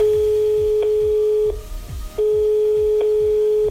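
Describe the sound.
Telephone line tone as a call is placed: a steady low-pitched tone holds, cuts out briefly, then returns, over a repeating low thumping pattern.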